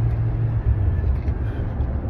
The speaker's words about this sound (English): We're on our way headed to the game. Uh, driving right now.